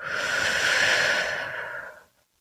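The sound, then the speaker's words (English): A long, deep breath during a guided prayer and relaxation moment. One steady, airy, fairly loud breath with a faint hiss holds for about two seconds, then drops away into silence. “I want you to start by taking a deep breath in and a deep breath out.”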